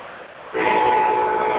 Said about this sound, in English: There's the old train whistle blowing out.